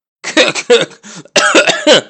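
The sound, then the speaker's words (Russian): A man coughing during a tense exchange: a loud, harsh fit of several rough coughs in quick succession, with a short gap partway through before a second burst. No speech is mixed in. “Закашливается”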